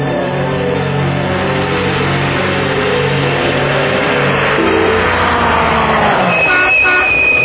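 Car engine roaring and revving loudly and continuously, with a brief horn toot near the end and no voices.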